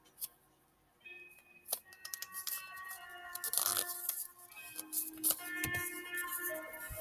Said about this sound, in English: And then you fold it like that, so the fold is still in the middle, the last fold.